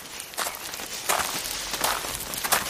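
Footsteps walk through a blueberry field, a few soft, crunching steps with rustling between them, steady and alone without talk.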